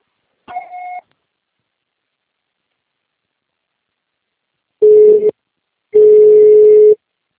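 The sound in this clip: Answering machine tones sound after a recorded greeting: one short, higher beep, then a long silence, then two louder, lower tones, the second lasting longer than the first.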